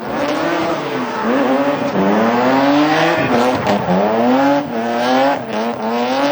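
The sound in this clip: Race cars drifting at a competition, engines revving hard in loud, continuous bursts with repeated rising pitch sweeps, with tire squeal mixed into the engine roar.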